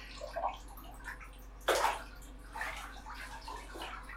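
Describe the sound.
Water running into a bathtub being filled for a soak, a faint, steady wash of splashing and trickling with one brief louder surge partway through.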